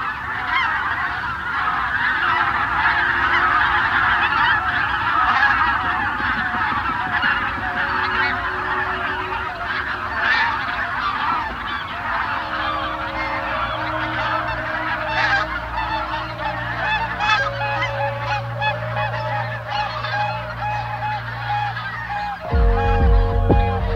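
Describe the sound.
Several hundred geese honk together as a flock, a dense, continuous mass of overlapping calls that stays loud throughout with no talk.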